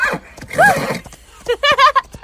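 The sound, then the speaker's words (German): A Haflinger horse whinnies while out on a ride, giving a few loud, wavering high-pitched neighs in quick succession after some softer snorting sounds. “Du bist ein erstklassiger Haflinger.”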